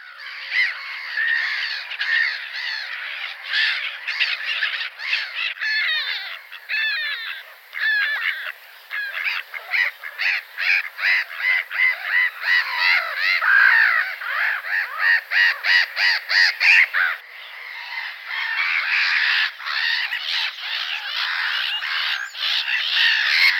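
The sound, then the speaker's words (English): Black-headed gulls give harsh, screaming calls: many rapid, raspy cries repeat almost without pause, loud and unbroken throughout, with no voices. “Black-headed gulls go in for a harsh screaming call, and they never get tired of it.”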